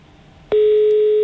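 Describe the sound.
Telephone tone after the other side hangs up: a sharp click, then a loud, steady single-pitched tone that holds unbroken to the end.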